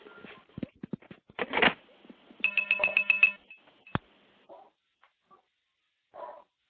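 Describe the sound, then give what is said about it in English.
Electronic cheeps sound on a telephone line just after a call is hung up, as the connection tears down: a quick run of repeated tones among scattered clicks, then a few faint blips, all fairly quiet. “hang up, listen for the cheeps, and that'll be the stack tearing down.”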